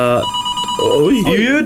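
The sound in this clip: A telephone rings with an incoming call: a brief, bright electronic ringing tone at the start, followed by voices talking.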